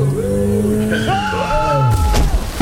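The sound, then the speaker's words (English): A new-model car screeches its tyres while speeding and hits a pedestrian: loud, shifting squeals that bend up and down, heavy engine and road noise beneath them, ending in a short burst of noise. “Whoa, you just hit me! You just hit and ran over me!”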